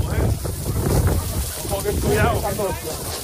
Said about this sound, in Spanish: Es el del sonido de las llamas de un incendio declarado ayer por la tarde en La Raga, en plenas fiestas del pueblo, llamas avivadas por el fuerte viento que traía la tormenta que cayó en Navarra